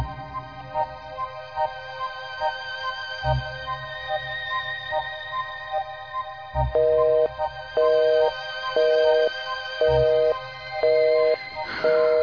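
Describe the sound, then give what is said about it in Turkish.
A telephone busy signal, a loud pitched tone beeping on and off in an even, steady rhythm, preceded by a duller line tone broken by a couple of clicks. “Yine meşgul sesi veriyor. Çıldırmak işten değil. Yarım saattir arıyorum, devamlı meşgul.”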